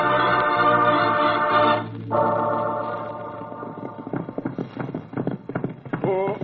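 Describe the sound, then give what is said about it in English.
Clip-clopping horse hooves of riders approaching, a rapid, irregular patter that builds through the second half after an opening stretch of sustained, music-like tones. “Wait. Listen. Somebody's riding this way now.”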